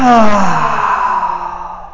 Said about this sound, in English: Open mouth exhale. Breath in. definitely an open mouth exhale. One more of those. And out.